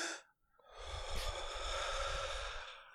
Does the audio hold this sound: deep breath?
yes

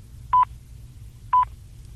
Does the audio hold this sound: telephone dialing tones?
yes

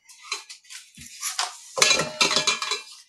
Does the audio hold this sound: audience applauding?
no

